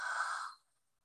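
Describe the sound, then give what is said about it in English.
A single breath pushed out through the mouth during a guided breathing exercise: a soft, airy rush of about half a second that fades quickly into silence. “breathe with me three times, breathing in through the nose and out through the mouth. Breathe in. Breathe out.”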